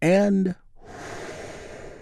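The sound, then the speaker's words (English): A big, deep breath drawn in during a guided group healing moment: after a brief voice, a long, soft, airy rush holds steady for over a second. “This is our 5.5 minute touchstone for today's healing moment of Zen, where we get to take a big, deep, healing breath all together.”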